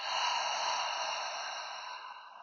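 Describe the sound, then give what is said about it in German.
A deep breath drawn in through the nose during a seated relaxation exercise: one soft, airy inhale lasting about two seconds, steady at first and then gradually fading. “Du atmest einmal durch die Nase tief ein und dann den Mund öffnen.”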